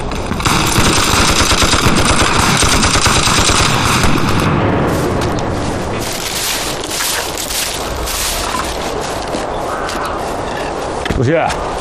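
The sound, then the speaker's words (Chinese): Sustained machine-gun and rifle fire in a Chinese civil war battle scene, with soldiers ordered to open fire. Dense, loud crackling bursts run throughout, with voices mixed in. “你们所有人，给我开枪”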